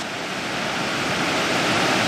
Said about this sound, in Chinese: 专家随后对这条瀑布的海拔落差进行了测量。